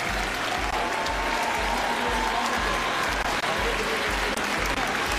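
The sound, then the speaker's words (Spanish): An audience applauds during a presidential handover ceremony at the National Congress. The clapping is a steady, loud, continuous crackle, and a regular low thumping beat runs underneath it from start to finish. “Pero como lo aplauden, ¿Cómo lo aplauden?”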